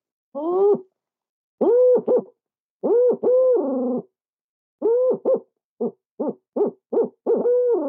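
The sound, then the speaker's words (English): A man imitates an owl hooting by mouth as a turkey-hunting locator call. He gives many hollow, pitched hoots in bursts, the later ones short and quick in rhythmic succession. “the owls, typically what you hear after a scream, they go,”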